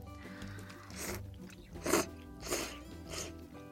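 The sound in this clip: Faint slurping and chewing of curry udon noodles in a thick, starchy curry broth, heard as a few soft, wet bursts spaced irregularly over a quiet background.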